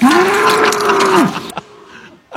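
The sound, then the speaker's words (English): A bull moos once in a long, low, steady bellow lasting over a second, which then cuts off and is followed by a few brief, fainter noises. “We don't have a cow. We have a bull.”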